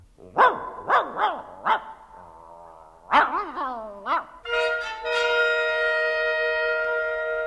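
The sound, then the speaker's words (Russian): A large, good-natured but scrappy dog barks loudly: a quick run of sharp barks, a short pause, then another burst of barks, ending in a long, steady drawn-out tone. “Это лает Авва, он добрый пес, но большой драчун.”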